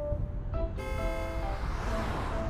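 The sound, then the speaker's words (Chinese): An oncoming truck on a road gives a low, steady engine rumble with a faint hum, heard quietly and alone throughout. “迎面开来一辆卡车，骤然的灯光让陆延辰直觉地眯起双眼。”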